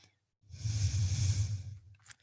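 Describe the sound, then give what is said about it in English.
A single long, breathy exhale during a push-up exercise, a soft, airy rush lasting over a second, fairly quiet and alone, followed by a brief faint breath at the end. “Breathe in. Good. And breathe out.”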